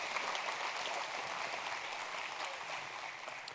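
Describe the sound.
An audience applauds to welcome guests onto a stage. Dense, even clapping continues without a break for the whole stretch at a moderate level.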